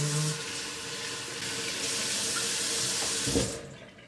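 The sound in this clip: Tap water runs from a faucet while rinsing a finger during cooking, a steady hiss lasting about three and a half seconds before it shuts off and fades.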